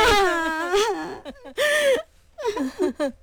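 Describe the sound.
A voice wails and cries in a long, wavering, high-pitched lament, broken by sharp gasping breaths and shorter sobbing bursts. It is loud and alone, with no spoken words.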